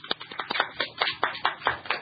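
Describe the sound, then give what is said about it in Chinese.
Meeting attendees applaud to welcome guests at a committee meeting: light, steady hand clapping from a small group, with sharp, fairly evenly spaced claps throughout. “我哋俾掌声佢哋。”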